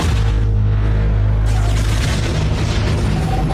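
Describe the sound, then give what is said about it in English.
A Star Wars sonic bomb sound effect: a deep, loud, sustained boom with a strong low drone, which turns into a dense, crackling roar that runs to the end. “Star Wars has lots of cool noises. Everyone likes the sabers in there. Yeah. The TIE fighters. I like the sonic, what are they called? They're sonic bombs. They're cool. I'll put the noise in now for the rankers at home.”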